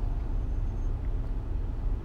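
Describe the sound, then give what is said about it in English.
Heavy road traffic at a congested exit ramp where many cars sit in a long jam: a steady, low, droning rumble that stays even throughout, with no voices over it. “it's traffic. I don't know what's going on. I don't know if it's an accident, if it's a lane closure. Not sure what's going on. But I'm on the road right now with literally”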